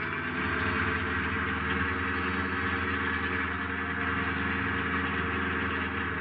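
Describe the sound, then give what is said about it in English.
A car engine drones steadily as the driver accelerates at night, a loud, continuous low rumble with an even tone and no pauses throughout. “I stepped on the gas.”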